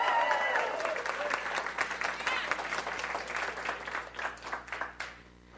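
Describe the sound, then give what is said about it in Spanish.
Applause and cheering from an audience during a church service: dense, continuous clapping mixed with shouts of joy, loud throughout and thinning slightly toward the end. “Si le va a dar un aplauso, déselo fuerte, the Lord, con grito de alegría y de júbilo.”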